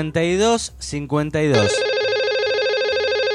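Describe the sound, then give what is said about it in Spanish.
A telephone rings with a steady, bright electronic tone sustained for nearly two seconds after a short stretch of talking. “Y que puede sonar así el teléfono. Por todos lados. Entonces suena por todos lados.”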